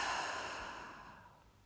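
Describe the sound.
A soft, deep exhale during a yoga lesson, taken while folding into a forward bend. The breathy sigh starts fullest and fades steadily over under two seconds.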